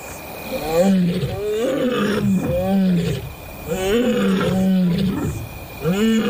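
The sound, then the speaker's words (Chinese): Recorded roars of three adult lionesses played back, a run of loud, deep, rhythmic roaring calls that repeat and overlap throughout, with no talking. “这一次，不是一只，而是三只成年母狮的吼叫声。”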